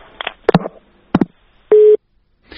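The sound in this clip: Telephone busy tone after a dropped call: one short, steady, loud mid-pitched beep, preceded by a few brief crackling bursts on the line and followed by silence.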